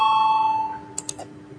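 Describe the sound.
An electronic bell tone sounds in a parliamentary chamber to call members to a vote. It is a steady, fairly loud ringing tone that fades over the first half, followed by a couple of brief soft clicks.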